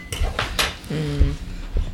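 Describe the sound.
Cutlery and dishes clink as someone fetches a spoon in a kitchen while making sushi with leftover rice. A few sharp clinks and rattles surround one brief ringing tone near the middle.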